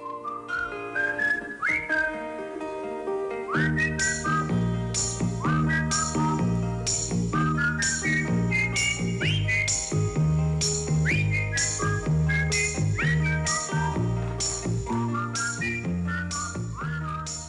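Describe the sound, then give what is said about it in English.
Whistling carries a bright, lilting melody with quick slides between notes, set over a steady rhythmic accompaniment of regular percussive hits and low tones, all at an even, fairly loud level with no talking. “you can probably hear some whistling in the background”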